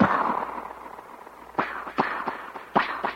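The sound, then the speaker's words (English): A gunshot sound effect typical of Western films: a quick, irregular series of sharp, loud cracks, each with a short decaying tail, following a fading noise at the start. “It's as classical as the sound that you always hear in the Westerns when they shoot the gun”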